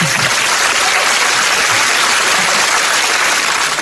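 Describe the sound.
Loud, dense audience applause at a poetry recital, an unbroken roar of many hands clapping at a constant level for nearly four seconds, with no voice over it.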